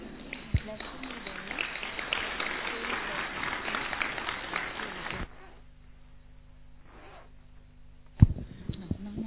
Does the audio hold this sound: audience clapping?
yes